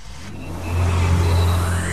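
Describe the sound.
A Nissan Juke car engine revs in an advert, a loud whirring drone that swells after a moment and holds strong, with a faint whine rising above it.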